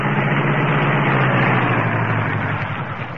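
A car engine idling after parking in an alley, a loud steady low rumble that holds throughout and eases slightly toward the end.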